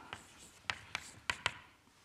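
Writing an equation by hand during a physics lecture: a few short, scratchy strokes separated by quiet gaps, faint and with no talk.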